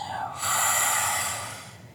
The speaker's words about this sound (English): let's now take a time to really take a deep breath and exhale it out.